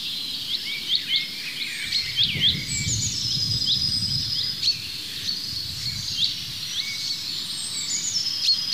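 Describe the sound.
Chaffinch calls: a series of thin, high whistled notes repeated many times at a moderate, fairly faint level, with a low rumbling background noise underneath.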